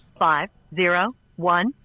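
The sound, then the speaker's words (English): An incoming telephone call rings as three evenly spaced, buzzy tones, each lasting about a third of a second with short gaps of silence between them. “Oh, he's calling us back.”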